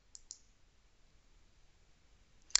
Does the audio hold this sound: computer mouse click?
yes